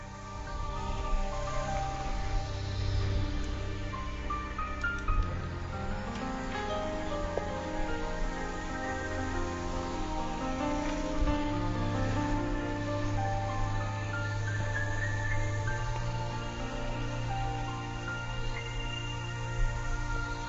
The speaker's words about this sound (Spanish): Vamos a escuchar esta canción.